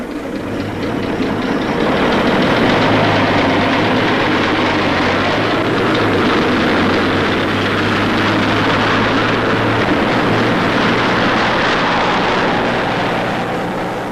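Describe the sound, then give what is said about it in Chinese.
An enemy military truck engine drives away with a loud, steady low rumble that holds for the whole stretch and eases slightly at the very end. “见敌人的军车开走了，方连长”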